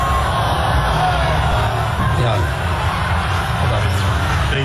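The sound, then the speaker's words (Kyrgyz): Crowd of thousands of demonstrators shouting anti-US and anti-Israel slogans at a rally in Tehran marking the anniversary of the US embassy seizure; a dense, continuous roar of yelling voices stays loud and even throughout. “Тегерандагы миңдеген демонстранттар АКШ жоголсун, Израилге өлүм деген сөздөрдү кыйкырышып”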